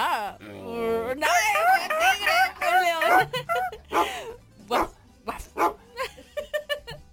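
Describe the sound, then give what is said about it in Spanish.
A dog gives a wavering, whining howl, then a quick run of many short, sharp barks and yelps that come in uneven bursts. “No, es que ese es un perro bilingüe.”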